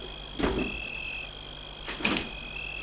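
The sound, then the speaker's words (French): A park gate is opened at night, giving two short scraping clunks about one and a half seconds apart over a steady, high insect-like drone. “Vite, elle court au portail. L'ouvre, il n'était pas fermé.”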